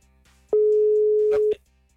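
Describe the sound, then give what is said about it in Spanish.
A telephone line tone as a call connects: a single steady, mid-pitched beep lasting about one second, clear and loud, with faint clicks around it. “Ese es el Querétaro que nos está marcando.”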